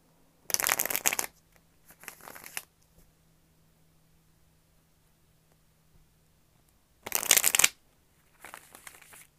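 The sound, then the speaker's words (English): A deck of cards being shuffled during a card reading: four crisp riffling bursts, two close together, then a long quiet pause before two more. “one more shuffle. I want to get the energy going in these cards as well.”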